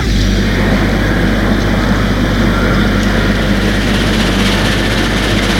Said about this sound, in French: Le train bouge. Puis commence à rouler.